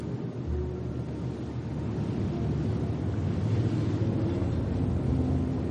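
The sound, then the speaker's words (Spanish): A boat crossing a river gives off a steady, low engine rumble that stays even and continuous throughout, with no voices heard. “y contempla un barco que atraviesa las aguas del río.”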